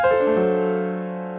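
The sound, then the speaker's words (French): An unusual-sounding musical chord is struck once in a jazz context, its several sustained notes ringing together and slowly fading. “un accord un peu bizarre comme celui-là”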